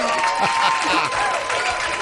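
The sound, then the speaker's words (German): Applause: a steady wash of many hands clapping, fairly loud and continuous for about two seconds, with voices audible underneath. “Hier kommt dein Applaus.”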